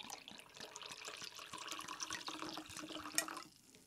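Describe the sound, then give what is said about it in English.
Liquid pours steadily into a glass as wine and Fresca soda are added for a blackberry cocktail: a continuous bubbling, splashing trickle that runs for several seconds before tapering off. No one speaks. “all I'm going to do is add some wine and some Fresca and then plop some blackberries in there and muddle it around a little bit with my cocktail stir stick”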